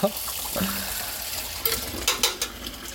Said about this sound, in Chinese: 你看这碗还要自己洗